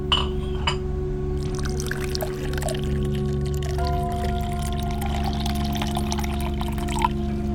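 Water pours in a steady, continuous splashing stream for about seven seconds over a low, constant drone.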